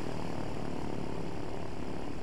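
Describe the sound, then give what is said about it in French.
Aircraft engine noise inside an airplane's metal-walled cabin as it rolls down the runway for takeoff: a dense, loud, unbroken roar and rumble with no other sounds. “On roulait sur la piste, doucement d'abord et de plus en plus vite. Le pilote appuyait sur le champignon. On était scotchés contre la paroi métallique. Soudain, le nez de l'appareil s'était levé”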